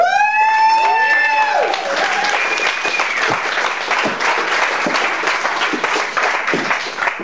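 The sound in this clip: Audience applause greets a guest entertainer on stage at a show in Albuquerque, New Mexico. Dense, loud clapping runs steadily through the whole clip, with a few high whistling tones near the start.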